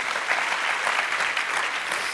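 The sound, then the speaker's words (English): Congregation applauding during a church service, a dense and steady wash of many hands clapping at even loudness throughout, with no distinct voices. “Come on, let's give the Lord a great clap offering.”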